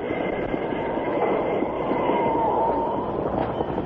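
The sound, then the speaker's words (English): Steady, loud rumble of a train running on rails, a dense continuous roar that holds level throughout with a faint thin high tone riding above it, and no voices. “Stop the train.”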